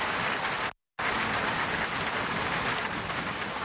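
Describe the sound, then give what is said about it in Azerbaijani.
Heavy rain falls in Baku as a steady, dense hiss that is interrupted once by a short silent gap near the start, with no voices. “Dünən axşamdan başlayan güclü yağış Bakının həm kənardakı yaşayış ərazilərində, həm də elə mərkəzində problemlər yaradıb.”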